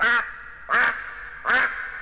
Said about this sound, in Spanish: Pero acertó a pasar por allí el señor pato.